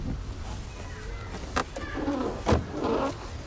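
A car being driven with people riding inside gives a steady low road rumble throughout, broken by two brief sharper knocks partway through.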